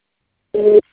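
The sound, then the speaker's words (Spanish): A single voicemail beep before a message is left: one steady mid-pitched tone lasting about a third of a second, alone in silence. “Por favor, deja tu mensaje después del tono. Si necesitas volver a grabar, marca el signo de número y espera instrucciones.”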